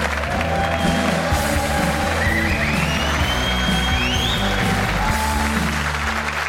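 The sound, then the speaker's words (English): Studio audience applause and cheering for a guest at the close of a rugby chat show, a loud continuous wash of clapping with scattered cheers holding steady throughout. “Give him a huge, huge round of applause, ladies and gentlemen.”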